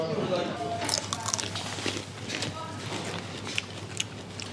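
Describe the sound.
Crisp crunching as someone bites into raw fennel. Crackly, juicy bites repeat steadily over a dense, noisy background.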